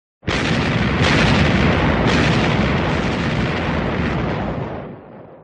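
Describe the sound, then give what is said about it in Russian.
Thundering volley from a field artillery battery firing cannon shells. A few heavy booms overlap into one loud, sustained roar that slowly fades out, with no voices. “Залп вышел на загляденье.”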